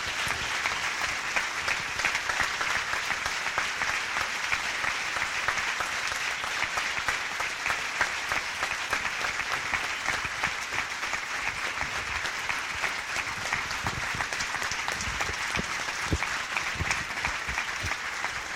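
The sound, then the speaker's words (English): Sustained audience applause welcomes a speaker to the stage: dense, steady clapping from a large crowd that holds at an even loudness for the full stretch, with no voices over it. “Please join me in warmly welcoming Immaculée Ilibagiza to the stage.”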